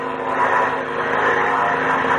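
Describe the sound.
A propeller airplane's engine drones steadily as the plane flies low over a town square to drop a note, a continuous, fairly loud hum with no break and no voices.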